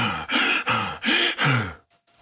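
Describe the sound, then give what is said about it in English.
A voice imitates the heavy, heaving breathing of a tired fighter whose chest is heaving: five loud, rasping breaths in a steady rhythm, each with a quick catch, then trailing off into quiet. “I see his chest is heaving. You know when people don't know how to breathe right? Like athletes, and their chest is like,”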